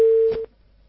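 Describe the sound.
A phone call cutting off into a busy tone: a single steady mid-pitched beep holds for under half a second and stops abruptly, leaving near silence.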